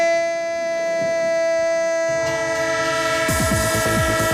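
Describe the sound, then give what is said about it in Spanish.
A train horn sounds steady, sustained tones, joined near the end by a rhythmic clattering of wheels on rails, used as the sound effect in a Spanish radio football round-up jingle; loud throughout. “El tren de Radio Estadio. El tren con vagones de fútbol.”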